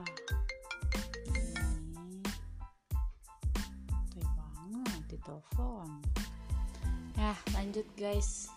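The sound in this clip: A phone ringtone sounds for an incoming call: bright, steady melodic tones with voice-like sounds mixed through, moderately loud and continuous with a brief dip partway.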